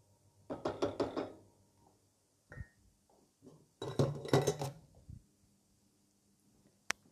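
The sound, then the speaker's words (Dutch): A spatula scrapes the last leftover sauce out of a pan in a few bursts of rapid scraping and tapping, separated by pauses, with one sharp clink near the end. “dan pak ik nog even de spatel. En haal ik even het laatste restjes saus uit de pan.”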